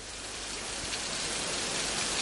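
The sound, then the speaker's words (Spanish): Rain falling: a steady, dense hiss of countless drops that stays even and continuous throughout, with no talk. “Bueno, seguimos haciendo el camino de Santiago bajo la lluvia.”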